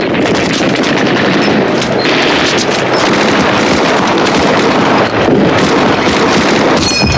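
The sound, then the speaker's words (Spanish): Rifle gunfire in an audio drama war scene at a river crossing, a dense, relentless rattle of loud shots that fills the whole stretch without pause. “Recargan apresuradamente y disparan al otro lado del río.”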